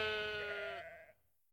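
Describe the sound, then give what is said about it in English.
A lamb bleats once, in a single loud, wavering, nasal cry that holds steady and then breaks off abruptly, leaving near silence at the end. “look at the lambs. Oh, yes. Why are they running?”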